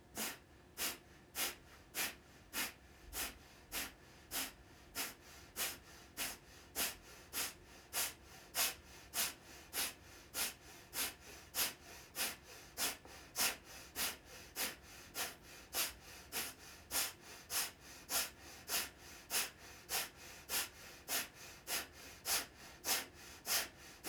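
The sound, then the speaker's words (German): Forceful kapalabhati yoga breathing, the final round of sharp exhalations pushed out through the nose, repeating as many short, even bursts at a steady rapid rhythm, alone with no talk. “Mach dich bereit für die dritte und letzte Runde Kapalabhati. Atme bequem ein. Und beginne jetzt wieder stoßweise über die Nase auszuatmen.”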